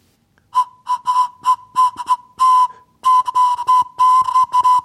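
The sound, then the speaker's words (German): A homemade carrot flute, its drilled bore narrowed by a carrot plug, blows one steady whistling tone in many short toots and a few longer held notes. The pitch stays the same throughout. “Jetzt bräuchte ich nur noch so Grifflöcher, damit ich unterschiedliche Töne spielen kann. Bis jetzt macht die Möhre nur einen einzigen Ton.”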